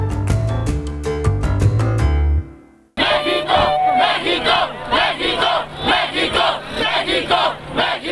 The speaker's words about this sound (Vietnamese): Đó là tiếng reo hò của người ủng hộ ông Andrés Manuel López Obrador đã thắng trong cuộc bầu cử tổng thống tại Mexico.